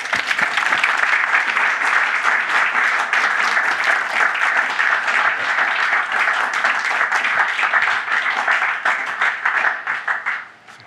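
Audience applause welcoming two guests at the English National Opera: dense, steady clapping from a crowd that holds for about ten seconds and then fades out at the end.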